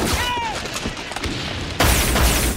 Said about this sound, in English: I didn't seek engagement. I was fired upon.